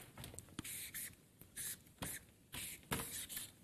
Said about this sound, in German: dass er, und ich schreibe es jetzt mal in die Mitte,